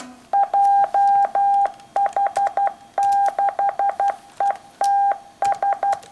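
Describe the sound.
Morse code beeps spell out an amateur radio call sign at the old licensing-test speed of 60 characters per minute: a steady, clear tone keyed in short and long pulses, grouped with brief gaps between characters.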